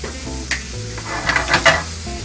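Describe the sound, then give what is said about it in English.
A fork whisks two eggs for a sausage, spinach and goat cheese scramble, making brief scraping taps. A livelier swishing flurry follows near the end. “So I'm going to use my fork, whisk these eggs up real quick.”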